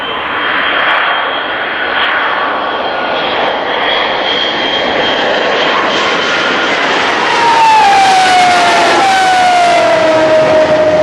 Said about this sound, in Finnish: Tähtihävittäjä lentää yhä.